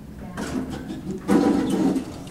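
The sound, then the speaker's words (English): An elevator starts to go down with a low mechanical hum that swells suddenly partway through, then holds steady. “We're now just at the elevator, waiting for the elevator. Here it goes.”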